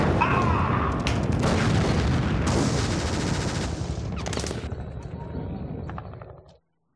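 Dense gunfire and heavy booms from a shooter video game, loud and sustained for several seconds before cutting off abruptly near the end.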